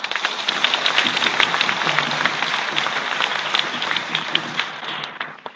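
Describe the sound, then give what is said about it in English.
An audience applauds at a church ceremony installing readers and servers as lectors and acolytes: dense, steady clapping that stays loud for several seconds, then thins and fades slightly at the end. “May I now ask the community to join me to welcome you with a big applause.”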